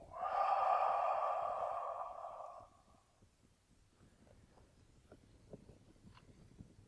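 A held breath released in one long exhale during a guided muscle-tensing relaxation, a strong breathy rush lasting over two seconds that fades into quiet.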